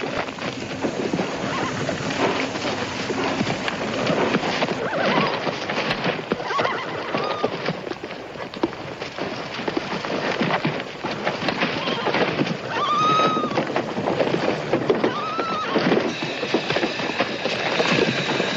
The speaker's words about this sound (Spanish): Una vez que terminan de apearse todos los jinetes con sus caballos, el tren se marcha.